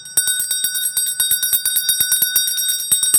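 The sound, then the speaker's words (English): An old cow bell from a farm rung rapidly by hand, with many quick metallic strikes in an uneven rhythm and bright, sustained high overtones ringing between hits, heard alone. “ring this very bell. Not a bell like it, this bell. My dad had got it off the farm. I think it used to be attached around the neck of a cow”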